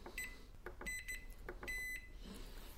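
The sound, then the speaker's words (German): High, quiet electronic beeps from a Tecsun S-2000 world receiver radio as its bandwidth button is pressed: a few short beeps and then a longer one, amid soft clicks and background hiss. “Ich tippe es jetzt nochmal hintereinander. Ja. Der lange Piep ist SSB ausgeschaltet.”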